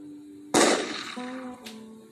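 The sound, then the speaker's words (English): Gunshot sound effect for a point-blank shot in an office: a single loud, sharp crack with a decaying tail, over a low, steady tone. “an anarchist named Alexander Berkman walked into Frick's office in downtown Pittsburgh and fired at him from point-blank range.”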